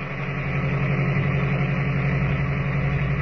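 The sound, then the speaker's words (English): An old car's ancient motor chugs steadily up a mountain road at night. It is a continuous low engine drone with an even, labouring pulse and no other sounds. “the stillness of the night is broken only by the steady chugging of the ancient motor as it struggles laboriously but steadily up the mountain.”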